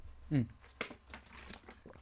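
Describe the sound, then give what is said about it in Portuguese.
A plastic bottle is twisted open: a few faint, brief crinkly clicks and crackles from the cap, with quiet gaps between them. “É que eu estou aqui a meter a garrafa para a esquerda e para a direita, porque não sei se bebo ou não. Depois já fechei, já voltei a abrir. Agora vou beber,”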